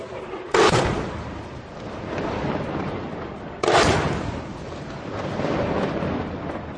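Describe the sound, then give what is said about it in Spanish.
Bombs from Russian airstrikes explode in Syria. Two heavy booms about three seconds apart each hit suddenly, then trail off into a long, rolling rumble. “Son las bombas que está lanzando Rusia. Dice Rusia que está lanzando bombas sobre los yihadistas.”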